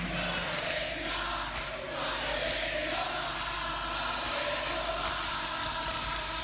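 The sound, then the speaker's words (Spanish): People mimic a 1970s Argentine rock concert audience: a rough, sustained roar of shouting and cheering voices that keeps going throughout. “Público argentino en los 70s.”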